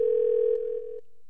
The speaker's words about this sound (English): Well, I can't have a conversation with a ringing phone